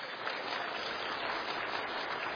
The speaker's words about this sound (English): We'll give her a round of applause.